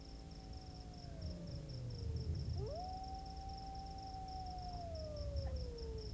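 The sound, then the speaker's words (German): Wolves, three of them, give a long, high, wavering howl that sinks, breaks briefly, then rises and slowly tapers off, while crickets keep up a steady pulsing chirp throughout. “Plötzlich sieht er sich drei Wölfen gegenüber, die er nicht ernst nimmt, natürlich.”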